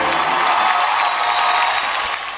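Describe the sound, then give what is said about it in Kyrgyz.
Applause from a crowd: a dense, steady wash of many hands clapping together, holding an even level and easing off slightly at the very end, with no voices standing out. “Баракелди, кол чабылар менен.”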